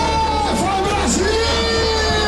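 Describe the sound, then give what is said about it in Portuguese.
Football fans cheer in a packed bar while watching the Brazilian national team play. Loud, continuous crowd noise with yells and whoops sits over a steady roar. “E a empolgação era tanta que o bar parecia arquibancada. A torcida ficou animada com o primeiro tempo da seleção.”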